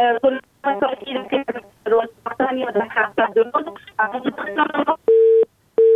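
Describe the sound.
A telephone line tone after a phone-in caller's call drops: two steady electronic beeps with a short gap, following a stretch of talk.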